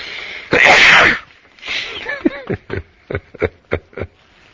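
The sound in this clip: A loud, explosive sneeze bursts out, then a string of short, breathy chuckles follows in quick uneven pulses.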